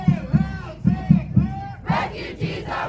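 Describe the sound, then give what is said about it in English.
Crowd chanting in unison at a refugee rights rally in Nashville organized by the Tennessee Immigrant and Refugee Rights Coalition, loud rhythmic shouted phrases repeating in regular bursts, the later phrases rising higher and more strained. “This is a rally in Nashville organized by the Tennessee Immigrant and Refugee Rights Coalition earlier this spring.”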